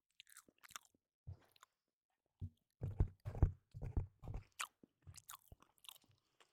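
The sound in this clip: Someone chews an After Eight mint chocolate: quiet, wet, crunchy mouth sounds in irregular clusters of bites, with short silent pauses between and no talking.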